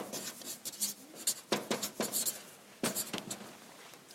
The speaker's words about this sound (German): Ich, ich, ich schreibe einfach mal so, warte mal, wie nennen wir das?